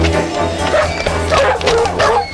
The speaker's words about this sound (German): lass die Hunde los!